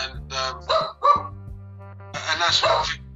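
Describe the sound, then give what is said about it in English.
A dog barks in several sharp, separate bursts early on, then lets out a longer, louder run of barking after a short pause. “Shut up, dog. Sorry about that.”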